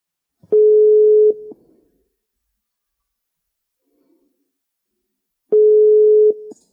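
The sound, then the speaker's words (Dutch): Telephone ringing tone while a call is placed: two steady mid-pitched tone bursts, each lasting under a second, separated by several seconds of silence. “We hebben een beller. We gaan bellen met René.”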